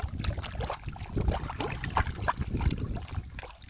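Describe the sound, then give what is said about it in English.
Water swirling and sloshing in a gold pan during panning, a continuous, irregular trickle and splash at moderate level, with no talk. “Okay, the panning has commenced. How much gold? Will there be in store?”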